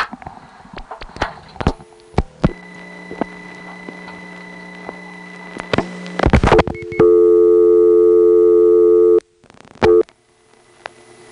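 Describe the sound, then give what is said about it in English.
Telephone keypad dialing tones as a seven-digit number beginning 444 is keyed: a quick run of short electronic tones, then a long, steady, loud tone and one brief tone after it. “Now I'm going to make the 424 AIS call by dialing 444 and the last four digits.”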